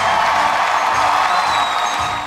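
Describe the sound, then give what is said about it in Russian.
Loud, dense applause greets the founders of a restaurant that revived a historic brewery. A thick, continuous roar of clapping holds steady, then tapers off at the very end. “Отдельные аплодисменты пусть раздадутся учредителям ресторана,”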